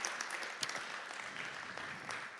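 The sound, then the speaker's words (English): Faint applause from an audience clapping during a sermon. Many hands patter in a soft, even, continuous spatter for the whole stretch. “Give God a clap for that, because it is true.”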